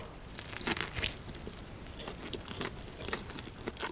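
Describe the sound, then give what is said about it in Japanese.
Someone bites into a crisp taiyaki and chews it, giving many faint, irregular crunches and crackles with no talking. “ちょもう一口いっていいですか”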